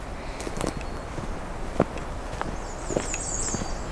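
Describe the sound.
Footsteps of someone walking outdoors on a June afternoon at a wooded point, heard as soft, irregular crunching steps over steady background hiss, with a high warbling bird call partway through.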